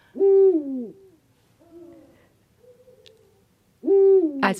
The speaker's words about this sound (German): Also was man jetzt hier hört, ist der erste Ruf, das ist ein Männchen, das ist ein, ja, der Uhu ruft seinen Namen, ein zweisilbiges Uhu oder Buhu.